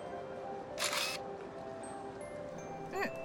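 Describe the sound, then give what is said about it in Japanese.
Camera shutter pressed to take a photo, one sharp mechanical snap standing out against a steady low background hum. “写真撮ってくれる？うん、そこを押してくれればいいから。”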